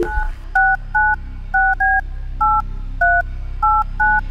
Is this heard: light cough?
no